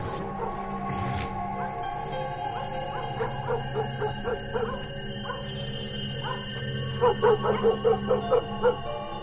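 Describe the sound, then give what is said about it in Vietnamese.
Dogs bark at night, heard faintly from the end of a road: many short barks and yips scattered throughout, ending in a quicker run of louder barks. “văng vẳng ở đầu đường tiếng chó cắn ma cứ nhấm nha nhấm nhặng”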